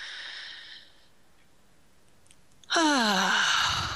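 A deep breath taken slowly: a soft airy stretch of breathing, a quiet pause, then a louder, voiced, sighing breath that drops in pitch.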